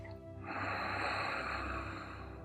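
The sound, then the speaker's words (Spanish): A deep breath is drawn in through the nose during a breathing exercise, a long, smooth, airy inhale lasting about two seconds over soft sustained tones. “Toma tres respiraciones profundas. Inhala por la nariz.”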